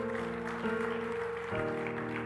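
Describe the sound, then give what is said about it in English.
Congregation applause in a church: a soft, continuous patter of clapping over sustained musical tones that shift chords partway through. “Can we just give the Lord a big round of applause?”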